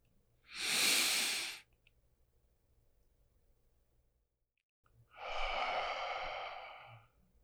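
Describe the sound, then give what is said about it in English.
Slow, quiet breathing: one long breath drawn in, a pause, then a longer, steady breath let out. “Take a breath in, then exhale.”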